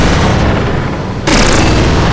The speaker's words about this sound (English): Lucas fired, shooting over my head, aiming at Eve.